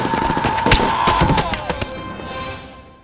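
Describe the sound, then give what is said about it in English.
Gunfire from an Uzi and other weapons: a quick volley of sharp, loud cracks and thumps in close succession, trailing off into a fading rumble. “JB moving a few steps to the left of the others to give himself a clear field of fire with the Uzi. The slavers were fish in a barrel.”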